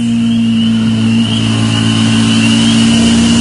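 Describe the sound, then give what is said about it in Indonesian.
Motorbike engine accelerating on the road to Cirebon, a loud unbroken drone with a strong low hum and a thinner whine riding above it throughout. “Ku tambah laju kendaraan motorku.”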